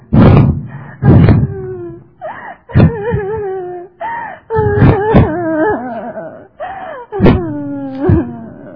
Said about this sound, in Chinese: 这位妇人郎。你为什么一直在哭呢？